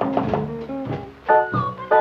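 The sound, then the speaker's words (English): Heavy thumps on a door at three in the morning by people standing outside: several dull, low, uneven knocks with short gaps between them. “They're all standing out there banging on my door.”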